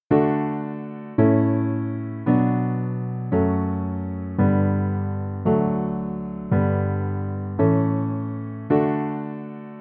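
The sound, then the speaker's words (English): The basic chord progression of a famous baroque canon plays as nine separate chords at an even, unhurried pace. Each chord strikes clearly and then slowly decays before the next one enters. “If we break this progression down to the most basic version, Pachelbel's canon sounds like this.”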